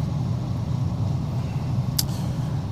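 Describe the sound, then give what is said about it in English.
Steady low road rumble and engine drone from a car cruising on a highway near Omaha at about 69 mph. The noise stays even and continuous without any talk. “It's 4:42, 22 miles to Omaha, just passing the 4:33 mile marker.”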